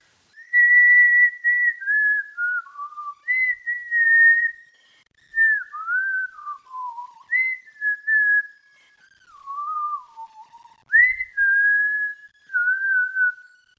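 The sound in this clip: A young woman whistles a tune alone, in many clear, melodic phrases that drift downward and then leap back up, with short pauses between them.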